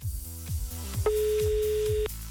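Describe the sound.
An outgoing phone call rings on a live radio call-in: a single steady electronic ring tone lasting about a second, sounding over background music with a pulsing low beat.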